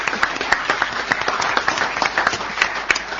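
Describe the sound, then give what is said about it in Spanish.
Audience applause at a short-story contest award ceremony, brisk clapping from many hands, dense and even throughout with no pause. “Un segundo aplauso entonces para Ave,”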